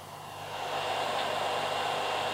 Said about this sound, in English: That sound you can hear is the air conditioner going.